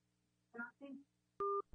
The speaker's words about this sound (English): All right, yeah, we're going to call this caller back.